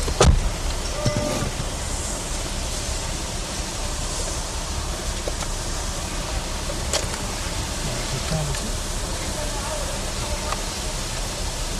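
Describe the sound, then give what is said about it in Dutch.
A car's electric power window closes with a steady motor whine and rumble that runs throughout, with a few faint clicks along the way. “Ik heb jouw raam alvast even dicht gedaan.”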